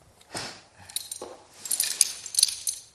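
Metallic jangling and clinking of a carabiner being handled for climbing: a short rattle early on, then a denser cluster of bright clinks toward the end.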